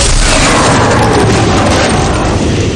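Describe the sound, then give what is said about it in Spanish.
A mirror explodes in a loud film sound effect from a supernatural action thriller, a dense, sustained roaring blast that stays powerful and even for the whole clip. “En ese momento, el espejo estalla y él vuela por los aires.”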